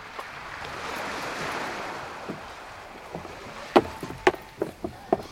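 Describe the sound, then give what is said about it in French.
A rowboat being launched from a ship into the sea: a steady wash of wind and water, then a quick run of sharp wooden knocks and splashes near the end. “Apprêtez-vous, monsieur. On va mettre le canot à la mer.”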